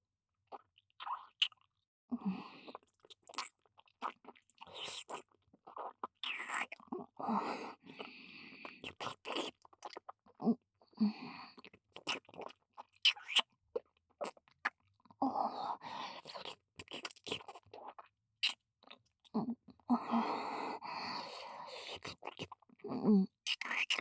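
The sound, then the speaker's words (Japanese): Consommé-flavoured potato chips being chewed up close, many crisp irregular crunches and wet chewing sounds in clusters, with short quiet gaps between bites. “そっちもコンソメ味にしてあげたから、味わってあげるよ。”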